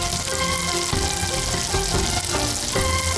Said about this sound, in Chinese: 将锅猛火烧热，倒入菜油，将油烧至80%，浇在辣椒面上